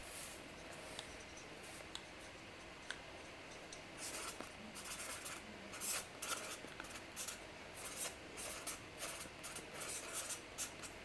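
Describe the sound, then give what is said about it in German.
Pen scratching on paper as someone writes diligently during a quiz, many quick irregular strokes, faint, growing busier in the second half. “schreiben fleißig hier”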